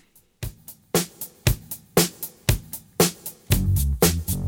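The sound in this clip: A pop song opening on a steady drum-machine beat, with punchy kick and crisp hi-hat hits landing at an even pulse before a deep, sustained bass line enters for the last second, with no voices.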